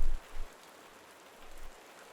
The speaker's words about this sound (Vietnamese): Ngoài trời mưa vẫn không ngừng rơi